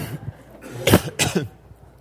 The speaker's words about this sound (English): sorry, podcast people, I just coughed in your ear.